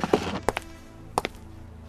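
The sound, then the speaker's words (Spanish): A door closing behind someone, heard as a few soft, hollow thunks, some falling in quick pairs, with quiet between them. “Cuando la puerta se cerró detrás de Pedro”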